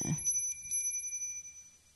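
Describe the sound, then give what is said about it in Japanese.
A Buddhist rin bell is struck once, giving a clear, high, sustained ring with shimmering overtones that fades slowly and quietly over the next two seconds. “このリンは持ってて、 はい、 朝必ず鳴らすんですけど、もう、すっごい遠くまで行く音ですよね、これ。”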